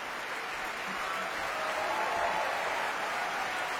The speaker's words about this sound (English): applauds the orchestra and the rest of the company.